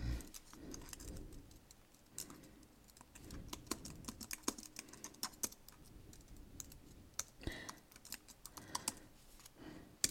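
Rapid, irregular clicking of computer keys as someone types a quick reply to a message, faint and continuous with no speech.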